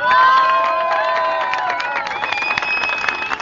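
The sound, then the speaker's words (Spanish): A crowd cheers and shouts at a Madrid rally of social workers protesting social cuts. Many voices whoop together in a sustained, bright roar that eases slightly toward the end. “Eran los sonidos de la concentración de la Asamblea Abierta de Intervención Social de Madrid contra los recortes sociales en un trabajo de Radio Almenara.”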